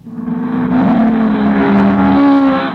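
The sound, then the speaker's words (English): Loud, sustained roar of high-performance muscle-car engines like Mustangs, Camaros, Barracudas and Thunderbirds. The throaty drone holds a steady pitch for a few seconds before easing off, with no voices. “That's the sound of high-performance engines. Mustangs, Thunderbirds, Camaro, Barracudas, Supersport, GTs, and many other cars have them.”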